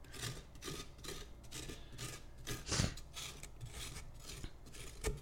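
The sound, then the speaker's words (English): A pumpkin scooper scrapes out the inside of a pumpkin in quick, rhythmic rasping strokes, many in a row, each a short dry scratch at fairly low volume with no voices. “I feel like the scooper really doesn't scoop. It scrapes.”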